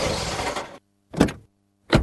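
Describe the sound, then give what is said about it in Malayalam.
A car arriving at night: a broad rushing vehicle noise cuts off, followed by two short, separate mechanical bursts with a low hum, each followed by silence. “അല്ല, ഇതെന്താ ഈ സമയത്തൊരു car?”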